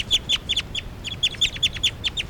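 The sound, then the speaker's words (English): Loud, high-pitched bird calls from a recording: a rapid string of sharp, repeated chirps in two bursts separated by a brief pause, with no voices. “Now all the birds are calling stuff. It's a recording, this is bird 383 calling louds.”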